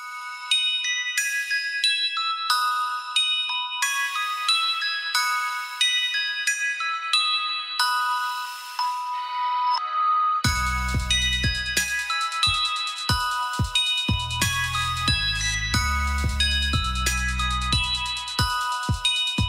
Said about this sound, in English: a new ice cream jingle will be made available to trucks all across the country in perpetuity.